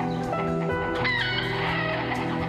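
Chickens clucking and squawking, several birds calling over one another in a busy, overlapping chatter of short, fairly quiet calls that runs through the whole moment.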